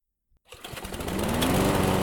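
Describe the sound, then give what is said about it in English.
A small riding lawn mower engine starts after a moment of silence, its buzzing drone swelling quickly and settling into a steady, loud, even whine. “Mike's reverie was broken by the noise of machinery. He glanced down at the path and saw a small riding mower creeping toward him.”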